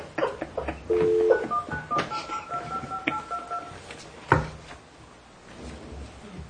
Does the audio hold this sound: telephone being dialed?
yes